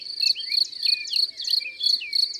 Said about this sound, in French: Dans l'herbe, au soleil, on entend des dizaines de grillons qui stridulent, un peu comme s'ils agitaient des petits grelots. C'est le grillon des champs,